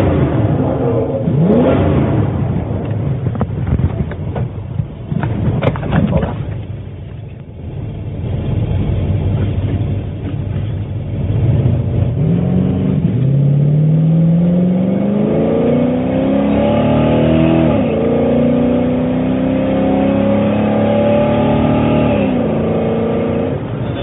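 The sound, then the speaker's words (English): A drag racing car's engine revs to warm its tires at a Montana drag strip. The roar is loud and sustained, with its pitch climbing through the middle and holding high to the end. “Now we're getting the tires warm.”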